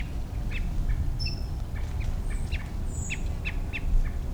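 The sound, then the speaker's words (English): Quail calling among birds with chicks moving through a buckeye: short, high chirps and squawks scattered irregularly over a steady low rumble of background noise. “I think that's a quail also.”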